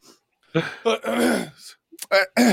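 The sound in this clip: A person clearing their throat with a few rough, voiced bursts of uneven length, ending in short, forceful grunting pushes.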